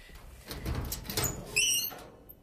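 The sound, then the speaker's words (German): A wardrobe door opens in a hallway: a soft rustling clatter builds, then a short, high, squealing hinge creak rings out near the end before the sound fades away. “Endlich blieb der Direktor im Gang vor einem Schrank stehen. Aufmachen, Abby.”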